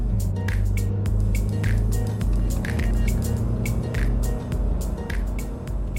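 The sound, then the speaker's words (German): A car drives along a road in the southern Black Forest. A steady, loud, low engine and tyre rumble runs throughout, with frequent short ticks and clicks over it. “Vorbei an Titi und Schluchsee fahre ich in den äußersten Süden des Schwarzwaldes.”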